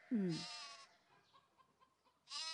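Lamb bleating: two short, high, nasal bleats, one at the start and one at the end, with a quiet stretch between them; both are fairly faint.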